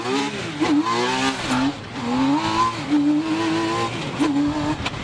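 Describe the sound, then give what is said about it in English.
The engine of a T-Rex three-wheeler drives past loudly, its note repeatedly climbing and dropping as it revs and shifts. “Canada has a separate category for three-wheelers. And driving T-Rex, that category could be called impractical, but it's just oh so cool.”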